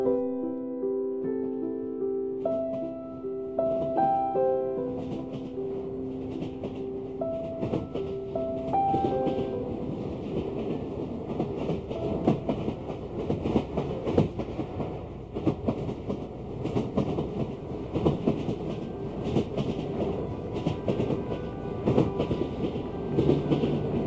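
A train rides along the rails with a continuous rumbling clickety-clack, steady and fairly loud throughout, with a short run of clear tonal notes sounding over the rolling noise at the start.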